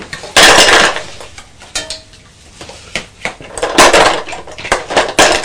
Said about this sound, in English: So put the fruit in the bowl.